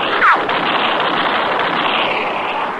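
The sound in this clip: A single sharp gunshot cracks just after the start in a radio drama, followed by a lingering wash of noisy hiss that continues steadily to the end.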